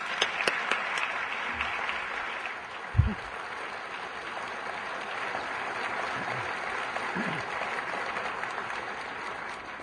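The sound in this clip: An audience applauds to welcome speakers at an evening event, a steady, fairly faint wash of clapping lasting about ten seconds, with a few slightly louder individual claps standing out.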